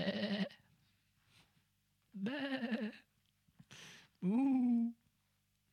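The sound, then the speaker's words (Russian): Sheep bleating, loud harmonic calls with long silent gaps between them and a short noisy burst near the end. No lowing of oxen is evident. “А что это за блеяние овец в ушах моих и мычание волов, которое я слышу?”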